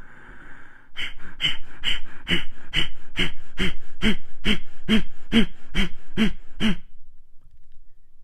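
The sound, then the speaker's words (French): Rapid forced exhalations of a breathing exercise, made by pulling the belly in hard to drive the air out while each inhale comes passively: many sharp, even puffs at roughly two per second, then an abrupt stop. “Ça se pratique de manière très rapide. L'inspiration, elle, est normale et inconsciente, elle est complètement automatique en fait, car tu vas te concentrer uniquement sur l'expiration. Ça ressemble à ça.”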